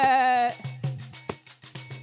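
A billy goat gives a single loud, wavering bleat lasting about half a second, followed by a few soft rhythmic knocks.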